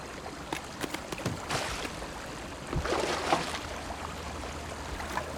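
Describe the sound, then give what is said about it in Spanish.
A canoe moving on water during a chase, with steady swishing and splashing from the hull and paddles and a few louder splashy bursts. No voices. “¡Se está yendo! ¡Mira! ¡Una canoa!”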